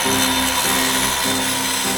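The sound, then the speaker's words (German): An angle grinder powered from a cable drum cuts into the metal bars of an entrance gate. It gives a loud, continuous, harmonic whine that dips briefly a few times as the disc bites. “Die Vorhut und ein Ersatzteam haben sich jeweils eine Kabeltrommel mit einer Flex von den beiden Wagen geschnappt und machen sich am Gitter des Eingangstors zu schaffen.”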